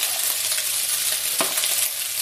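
Rice frying in a pan turns into a continuous bright sizzle, steady and fairly loud, with a few sharper crackles and scraping stirs breaking through the constant hiss.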